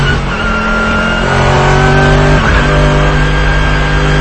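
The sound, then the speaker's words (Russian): A Mercedes GT race car and a Logan roar during the Nürburgring 24 Hours race, with a loud, steady engine drone whose pitch climbs, dips briefly midway, then holds high. “этот Логан, на Нюрбургринге 24 часа. Это 24-часовая гонка была. Вот GT. Мерседес GT пытается его обогнать.”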